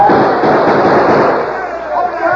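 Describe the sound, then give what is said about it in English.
Gunfire in a radio drama battle as the cavalry charges up a western ridge against outlaws: a dense, crackling barrage of many overlapping shots forming a continuous loud roar. “The cavalry. They're coming up the western ridge. The army, boys! Open fire on the outlaws!”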